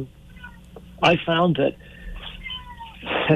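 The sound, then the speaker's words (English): A cat meows several times in quick succession, with loud, harmonic cries that waver in pitch, over faint steady background noise. “I found that my cat Simon has joined us. I don't know if you can all hear him here.”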